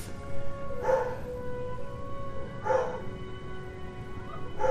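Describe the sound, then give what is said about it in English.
Dog barking in the background, a few short, fairly faint barks spaced about two seconds apart over a low steady hum, with no talk. “I apologize about the stupid dog barking in the background.”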